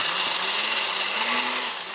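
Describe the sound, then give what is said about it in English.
A kitchen blender runs steadily for about two seconds, a loud, even whirring motor drone with no break or change in speed and no talking over it. “I spent the next few hours in the kitchen boiling and blending”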